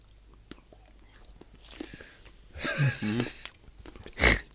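Biting and chewing on a piece of mild chilli chocolate, soft crackly mouth sounds building midway, then one loud, sharp bite near the end.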